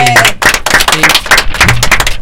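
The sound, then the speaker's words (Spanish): A group claps for everyone present, with sharp, distinct hand claps in a quick, uneven rhythm and voices talking among them. “Bueno, un aplauso para todos.”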